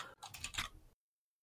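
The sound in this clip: Someone types a note on a computer keyboard in a short burst of quick key clicks lasting under a second, then stops abruptly into silence.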